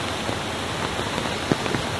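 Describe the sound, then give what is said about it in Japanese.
Heavy rain pouring down across a village, a dense, steady hiss of water falling on surfaces, with a few sharper drop-like ticks standing out from the constant wash. “やがて村中に激しい雨が降り注ぐようになりました。”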